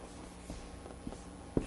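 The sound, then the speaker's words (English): Faint scratching of a pen drawing a thumb and fingers, a few soft strokes ending in a sharper tap, quiet and without talk. “Okay, so we'll draw the thumb across like that. And then fingers.”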